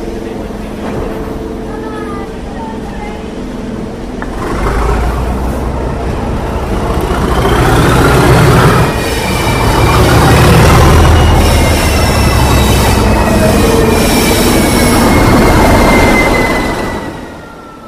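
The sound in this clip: A heritage railway train pulls away, its deep rumble building and staying loud as high squealing wheel tones rise above it, then easing off at the end. Faint talk is heard briefly at the start.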